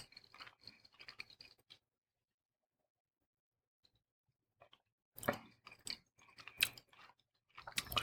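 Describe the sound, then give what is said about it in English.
Hard cheddar cheese with Parmesan is chewed in two quiet bursts of crisp, crunchy mastication separated by a few seconds of near silence. “And this is a hard cheddar cheese with Parmesan in it. And I like this. A great cheese from Trader Joe's. See how it goes with this.”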